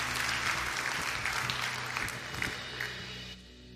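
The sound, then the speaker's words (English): Church audience applauding to welcome new members into the audience, a dense, steady wash of clapping that holds for several seconds before thinning and tapering off near the end. “Can we put our hands together and welcome some new family members today?”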